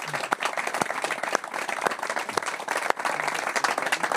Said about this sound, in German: Also Hopp, an der Stelle mal Applaus für die ganze Familie,